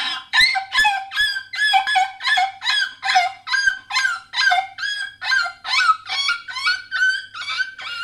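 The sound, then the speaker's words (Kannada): A puppy that has been hit by an auto-rickshaw cries out in pain. Many high, wavering yelps and whimpers repeat in a steady rhythm, loud and alone, with a few faint low knocks beneath the first cries. “ಒಂದು ನಾಯಿ ಮರಿ ಆಟೋಗ್ ಸಿಕ್ತು. ಅದು ನೋವಿಗೆ ಹೀಗೆ ಕೂಗ್ತು.”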